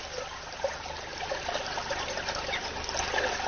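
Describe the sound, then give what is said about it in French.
Soft, steady trickling and babbling of a water current flowing in a stream, faint and continuous with no talk. “T'as vu, c'est bizarre, l'eau, elle ne bouge pas, et là, il y a du courant, là.”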